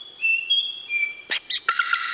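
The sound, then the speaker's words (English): Bird calls from a bowerbird mimicking other birds: sustained high, clear whistles, then several short chirps and trilled bursts, fairly loud against a quiet background. “These birds have an incredible ability to mimic a huge variety of sounds in their environment. They can recreate the sounds of other birds,”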